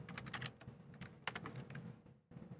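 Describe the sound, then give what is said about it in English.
Rapid typing on a computer keyboard as a command is entered, with dense, clattering keystrokes in quick bursts, a brief pause near the end and then a few more keys. “Whoa, if I type it right.”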